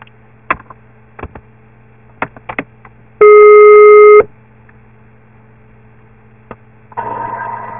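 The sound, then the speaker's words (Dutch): A telephone ringback tone sounds once while a call is placed: a single steady, high beep lasting about a second. Scattered clicks and a low mains hum surround it, and a noisy hiss comes in near the end. “Ik ga je bellen.”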